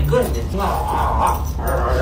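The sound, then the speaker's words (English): An excited 17-month-old German Shepherd mix dog reunited with its owner at a humane society shelter, whimpering and yipping over loud human voices. “When James Perry was reunited with his dog Kayla, it was hard to tell which of the two was more excited.”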